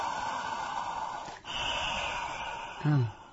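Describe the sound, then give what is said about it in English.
Deliberate breathing, inhaling and exhaling: two long, airy breaths separated by a short pause, then a brief voiced sigh at the end. Soft and steady, with no other sound. “my philosophy is the first kind of sound in life is called breath. When we go like this,”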